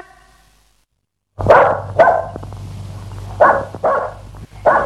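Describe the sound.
A dog lets out a few sharp, mid-pitched barks in short bursts separated by brief pauses. A moment of near silence comes before them, and a low steady hum runs underneath.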